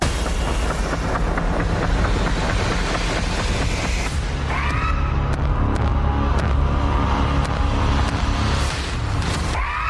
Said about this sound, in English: That's the trailer for the new critically acclaimed vampire horror film Sinners.